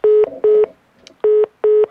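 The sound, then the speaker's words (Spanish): Telephone busy tone after a call is cut off: four short beeps of a steady, mid-pitched tone, loud and alone with no voices. “se le cortó la llamada.”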